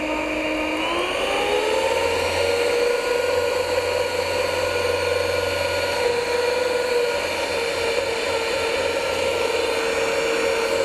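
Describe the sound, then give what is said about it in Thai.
An electric blender mixes ingredients with a loud, continuous whirring motor drone. Its pitch climbs briefly near the start, then holds steady and even for the rest of the run. “อีกนะคะแล้วก็ปั่นให้เข้ากันนะคะ”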